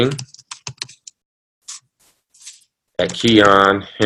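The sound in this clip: Keys tapped as an email address is typed on a computer keyboard: scattered sharp clicks with short pauses, then a voice starts talking.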